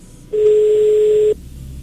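Ringback tone of an unanswered telephone call: a single steady, pure electronic beep lasting about a second, alone against faint background hiss.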